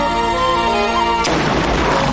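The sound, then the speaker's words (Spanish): Rifle shot fired at a buffalo herd in a western film scene: one sharp, loud crack at about the midpoint, cutting off a sustained tonal backdrop and trailing into a long, noisy rumble. “Al día siguiente, Bacter carga su rifle, mientras se punta y dispara”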